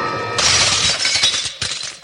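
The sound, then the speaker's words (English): Window glass shatters as someone crashes through it: a loud burst of breaking glass with scattered clinking fragments, followed by a second, shorter crash of falling shards near the end. “Wow, I crashed right through the window.”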